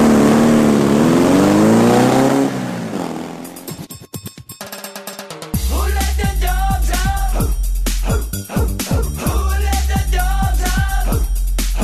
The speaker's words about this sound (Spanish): Te subes a la moto y te vas.